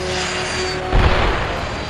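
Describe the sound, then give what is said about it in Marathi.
A Sabre jet fighter in combat: a steady, dense engine roar with a sudden low burst partway through, then the roar continues alone. “Nirmal Singh, cyber jet विमानांची बॉम्बफेक क्षमता कमी करण्यासाठी त्यांना खाली आणण्याचा प्रयत्न करत होते, त्यांच्या जवळ जाऊन मारा करीत होते.”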